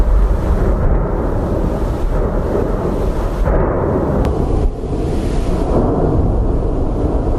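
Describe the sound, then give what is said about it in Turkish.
Strombolian volcanic explosions go off one after another on a volcano's slopes while lava flows. They sound like a loud, continuous deep roar and rumble mixed with gusty wind noise, with no talking. “Yanardağın yamaçlarından lavlar akarken peş peşe meydana gelen Stromboli tipi patlamalar bölgede endişeye neden oldu.”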